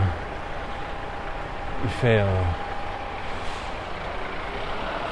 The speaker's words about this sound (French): Et vous devez entendre la circulation, hein, je suis en pleine circulation.